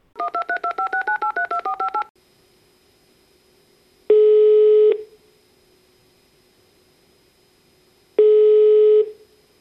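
Telephone keypad dialing: a rapid run of many short touch-tone beeps, then two long, steady ringing tones separated by silence as the call connects.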